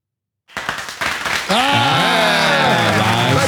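Studio audience applause used as a sound effect: a burst of clapping that swells after a moment into a loud, sustained, tonal crowd roar that holds steady to the end.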